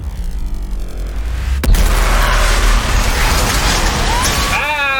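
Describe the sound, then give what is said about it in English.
A ship explodes in the sky in a video game: a sharp, heavy blast gives way to a sustained roaring rumble, and a short vocal cry comes near the end. “A ship blew up in the sky, and the explosion sort of knocked off our ledge.”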